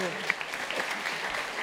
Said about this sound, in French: Ça, il y a eu des applaudissements. Oui, on peut l'applaudir.